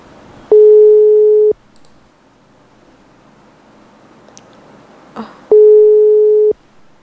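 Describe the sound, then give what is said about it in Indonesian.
A telephone busy signal sounds as a call fails to connect: two long, steady electronic tones separated by a pause, with faint hiss and a small click between them. “sepertinya sambungan masih terputus. Masih kami coba hubungi.”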